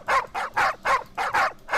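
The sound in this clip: Dogs bark in a quick, steady run of about seven sharp, loud barks, evenly spaced, with no talk over them.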